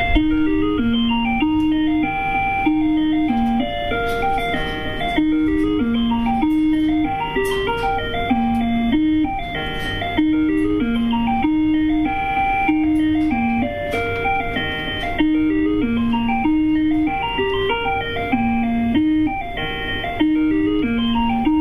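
A Breville ice cream maker signals the ice cream is finished with a bright electronic melody of beeping notes that loops over and over for about twenty seconds at a steady volume.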